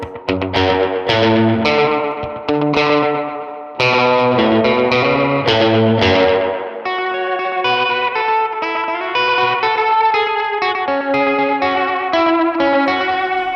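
An electric guitar is played on its bridge pickup, set for a warmer tone, with distortion and effects. Loud, choppy strummed chords come first, then a run of sustained, ringing notes, and the guitar is heard alone.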